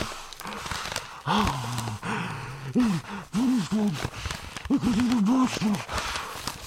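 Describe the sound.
Panicked breathing into a paper bag: rapid, ragged gasps and voiced, whimpering breaths come in uneven bursts, rising and falling in pitch, with brief pauses between fits.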